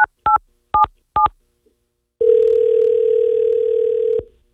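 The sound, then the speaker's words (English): Telephone keypad tones, four short two-tone beeps, followed by a steady dial tone lasting about two seconds, heard while placing a call back to someone. “Let's give Rich a call back and give him some exclusive details.”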